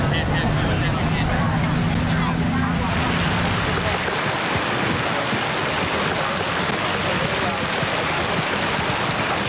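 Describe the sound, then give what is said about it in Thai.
Outdoor ambience at the Sanam Luang ceremonial ground ahead of the Royal Ploughing Ceremony: a loud, steady, dense rushing wash of noise throughout, its tone shifting slightly a few seconds in. “เป็นบรรยากาศนะคะที่บริเวณการพิธีท้องสนามหลวงนะคะเพื่อเตรียมจะประกอบพิธีอันสำคัญในวันนี้ค่ะพระราชพิธีพืชมงคลจรดพระนางคันแรกนาขวัญ”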